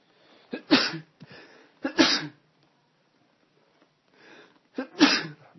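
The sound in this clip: Three loud, sharp sneezes during an Arabic religious lesson, each preceded by a brief breathy inhale, spaced a second or more apart with quiet between them.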